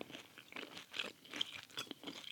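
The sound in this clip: Biting into and chewing a fish finger in a dark studio: faint, irregular crunches and moist chewing repeated steadily throughout, with no talking.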